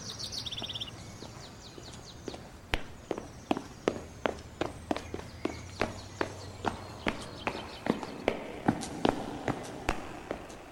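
Footsteps of a person running off: many quick, evenly spaced footfalls in a steady rhythm that continue to the end, with bird chirps heard near the start.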